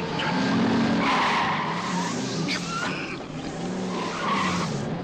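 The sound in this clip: A car engine revs hard and climbs as the vehicle speeds up to overtake another car, with squeal-like tones riding over a steady roar for a few seconds at moderate loudness.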